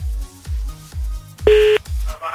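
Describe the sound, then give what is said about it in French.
A telephone number being dialled during a call: one sharp, bright key tone about a third of a second long, sounding over a steady pulsing low thump that repeats about five times. “on appelle le premier ou la première maintenant”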